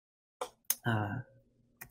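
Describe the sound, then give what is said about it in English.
A few sharp, brief computer mouse clicks, as when selecting continue in a software setup screen, with a short stretch of speech between them. “I select a team where I want this bot to live. I click continue.”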